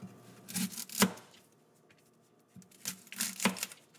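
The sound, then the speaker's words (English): Knife strikes as one onion is finely chopped for a Greek baked pasta dish come in two short bursts of a few crisp chops each, separated by a quiet pause, faint and without talk. “I'm going to finely chop up 1 onion here.”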